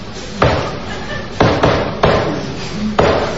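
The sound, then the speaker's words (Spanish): A secret-password knock on the door of a clandestine gambling den after the club closes: a few sharp, loud wooden raps in an irregular pattern, two close together in the middle, each followed by a short ringing decay. “Cuando cierra el club, te da unos golpes.”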